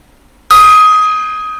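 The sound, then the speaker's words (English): A single loud strike on a gong bursts out, then rings on as a sustained metallic tone that fades slowly. “Okay. The gong.”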